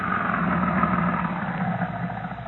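A car engine hums as the car drives up to the gate of a Defense Department storage depot, a steady low rumble with no voices.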